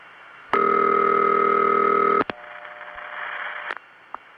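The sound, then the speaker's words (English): Steady telephone dial tone heard after hanging up a long-distance call, droning evenly for under two seconds before cutting off with a couple of sharp clicks, followed by faint line hiss and a few soft ticks. “Now we still have the Phoenix connection, but I'm going to have to really hang up this time. Either that or key in another number, because you know what it's going to do.”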